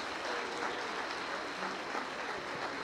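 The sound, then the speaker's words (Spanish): Audience applause at a family and marriage event, greeting standing minors under 18: steady, dense clapping that holds at an even level throughout, with no talk over it. “Vamos a darles un aplauso.”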